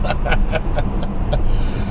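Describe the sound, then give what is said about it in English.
Steady rumble and hiss of a car travelling at 60 mph on the M25 motorway, a constant loud road and engine drone with no talking over it. “We're on the M25 but it's genuinely exciting, isn't it? It certainly is, yes. Um, Very exciting. Current speed is 60 miles per hour.”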